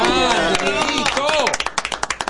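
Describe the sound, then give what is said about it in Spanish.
A radio show audience claps for the maestro. A voice talks over the first part, then sharp, rapid claps take over and run in a quick, fairly even rhythm to the end. “Ahora sí, renovamos el aplauso para el maestro.”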